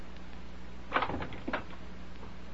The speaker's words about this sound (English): Go over to the window. Open it up. What? Don't ask questions. Just do as I say.